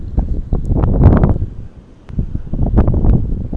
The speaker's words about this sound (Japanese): 寒いです。風が、北が入ってるんで風が、冷たい風が吹いてます。